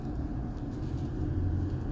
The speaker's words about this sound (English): Driving the back roads of Telford right now, about to head home.